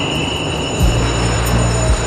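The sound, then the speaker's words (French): Steady rumbling of a train at a station platform, with a continuous thin high whine above. A low humming drone sets in partway through and holds to the end. “On est sur un quai de gare.”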